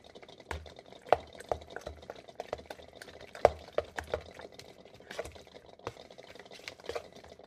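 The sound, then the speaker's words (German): Faint, sharp taps of a knife chopping peeled eggs on a board, several irregular cuts standing out over a soft, steady background. “Eier geschält und noch schnell reingeschnippelt. So, noch zwei, drei Schnitte.”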